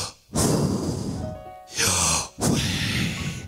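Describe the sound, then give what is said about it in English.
Deliberate breathing in and out, used to demonstrate sounding out a sacred four-letter name. Several long, airy breaths with short pauses between them, rendered alone without spoken words. “To breathe in and breathe out.”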